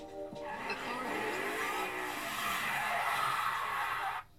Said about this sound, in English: You and Zoe jump back, panicked it'll hit you. It drives up the curb, breaking the bumper a little.